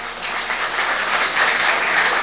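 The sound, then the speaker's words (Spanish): Church audience applause: a thick, continuous patter of many hands clapping together, swelling slightly in loudness toward the end. “Aplausos hermanos.”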